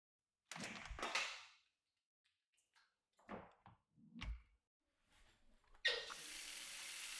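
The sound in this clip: Water runs from a tap to bathe a male pet. Several short clatters and knocks come first, then the water starts and flows in a steady hiss until the end.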